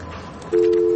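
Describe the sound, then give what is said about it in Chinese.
A telephone busy tone sounds after a caller's line drops during a call-in, a steady two-pitch electronic tone that switches on abruptly halfway through and holds to the end over faint background hiss. “赵先生断线了。”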